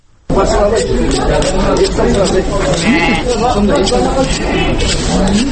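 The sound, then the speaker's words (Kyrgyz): Sheep bleating at the old Talchok livestock market in Bishkek on the Eid holiday, with many loud overlapping bleats rising and wavering over a constant babble of crowd voices. “Мен Бишкектин эски Талчок деп аталган мал базарында турам. Учурда касапчылар шымаланып Бишкекке киришип жатышат.”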